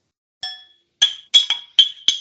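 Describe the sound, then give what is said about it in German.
Glasses clink in a toast at a celebration: six bright, ringing chimes, the first on its own and the other five following in quicker succession, with no voices. “Wir feiern jetzt ja auch noch ein kleines bisschen weiter und stoßen jetzt irgendwie, glaube ich, auch gleich nochmal kurz an hier.”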